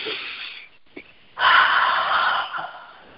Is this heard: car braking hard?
no